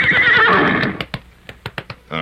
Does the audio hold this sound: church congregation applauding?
no